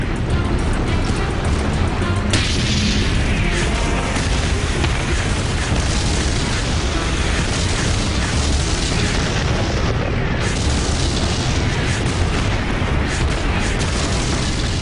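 Red Army artillery fire pounding a river crossing during the Battle of Kursk: a dense, continuous roar of heavy booms and rumbling blasts that blend together at a loud, unbroken level.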